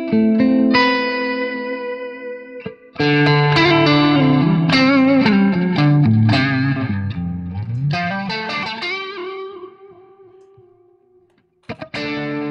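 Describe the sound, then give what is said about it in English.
Electric guitar played through a bass-heavy Lone Star amp with the low end cut and treble added, ringing out effect-laden notes and chords. It pauses briefly, resumes, decays into a long sustain, then a short strum returns at the end. “I'm using it to carve out a bit of the low end, because the Lone Star is a pretty bass heavy amp. So I'm carving out some of the low end and adding a little treble”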